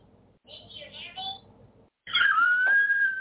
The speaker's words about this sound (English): Yeah, that's my phone. I never knew it was a thing for your phone.